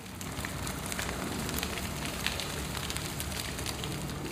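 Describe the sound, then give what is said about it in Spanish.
Roaring flames of a blazing furnace give a steady, faint rushing hiss dotted with scattered crackles, continuous throughout with no voices. “Sadrach, Mesach y Abednego firmemente atados, cayeron a las rugientes llamas”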